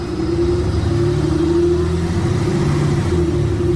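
A car arriving, its engine giving a loud, steady low rumble with a constant hum throughout and no talk over it.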